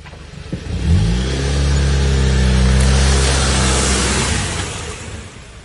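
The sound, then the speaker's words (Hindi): A car engine as the car drives and then stops: the engine revs up, holds a steady mid-pitched drone for several seconds, then fades away near the end. “Hasan ने थोड़ी दूर जाकर एक जगह पर car रोक दी।”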